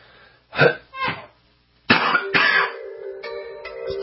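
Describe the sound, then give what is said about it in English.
Coughing: a few harsh, separate coughs at first, then a louder rougher cluster of coughs with a throaty rasp trailing after. “I'm sorry, I'm keep coughing in your face here.”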